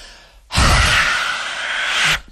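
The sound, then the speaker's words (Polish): A long, loud exhale through the mouth during a breathing exercise empties the lungs as a steady, breathy rush lasting under two seconds, heard alone. “Najpierw głośny wydech ustami, aż poczujemy, że nie ma powietrza w płucach.”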